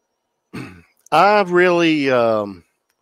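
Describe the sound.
Throat clearing: a short, rough, low burst, then after a brief pause a longer voiced, hum-like rasp with a wavering tone, fairly loud and heard alone.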